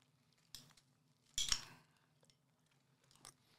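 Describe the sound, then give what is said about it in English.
Faint, crunchy scraping as Rice Krispies are stirred together with hot chocolate chips and butter, in three short bursts with the middle one the longest and loudest. “I'm stirring together Rice Krispies with hot chocolate chips and butter.”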